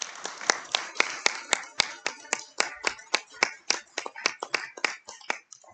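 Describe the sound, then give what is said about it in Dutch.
Sparse hand clapping from a small audience applauds the appointment of two women. Many sharp, distinct claps sound at an uneven rhythm, fairly bright, with no voices. “alvast een applaus voor jullie benoeming”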